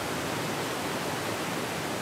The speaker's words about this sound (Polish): mamy efekt, woda właśnie w śluzie napełniana jest.